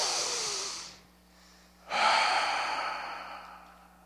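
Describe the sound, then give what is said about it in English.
A crowd takes a deep breath together: a long, airy inhale, a brief pause, then a longer, fading exhale, all fairly faint. “Everybody do this. Everybody take a deep breath with me.”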